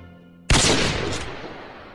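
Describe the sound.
A single loud gunshot cracks out sharply and then rolls into a long, slowly fading roar, after a quiet low hum.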